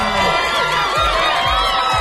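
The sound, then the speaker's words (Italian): A studio audience cheering and whooping, with loud, overlapping excited voices and shouts forming a continuous crowd roar that stays high in level throughout. “Applausi per Angelo”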